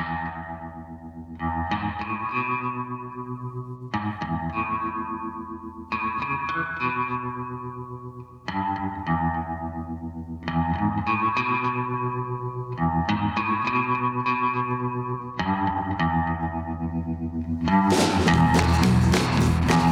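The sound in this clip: Electric guitar on a semi-hollow body with a Bigsby vibrato arm, played through tremolo and very heavy reverb: twangy low notes repeat in shimmering, wavering phrases, ending in a louder, brighter burst.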